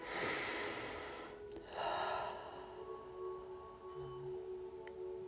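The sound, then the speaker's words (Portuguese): A deep breath taken during a guided relaxation exercise: two soft, airy bursts of breath, the first long and full and the second shorter, over a faint steady hum. “Respira fundo.”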